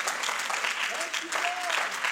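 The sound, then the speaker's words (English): A church audience claps hands in a steady, continuous round of applause, with voices calling out over it. “You ought to clap your hands to the Lord tonight and say, thank you, Lord, for being in control.”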